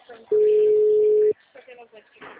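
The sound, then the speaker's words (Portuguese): A telephone ringback tone sounds while a call to someone goes unanswered: one steady, mid-pitched beep lasting about a second, then a pause, followed by someone talking. “Eu tô ligando agora pra essa moça aqui pra ver se ela me atende, mas não atendeu”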